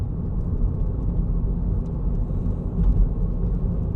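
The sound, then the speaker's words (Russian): Car on the move, heard from inside: a steady, dense low rumble that runs unbroken throughout at moderate loudness, with no talk. “Едут в машине.”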